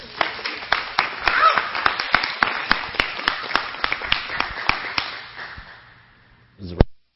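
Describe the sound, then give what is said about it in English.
An audience claps to welcome a speaker at a Sunday church gathering: a steady run of crisp hand claps that tapers off and fades, ending with a brief low rustle. “Give her a welcome.”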